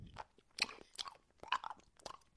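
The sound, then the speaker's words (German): A person chewing food with several crisp, crunchy bites in an uneven rhythm, each a short burst separated by quiet gaps, soft and close with no talk. “Du kaust! Oh. Der Popschutz hilft ja nicht. Du, du kaust.”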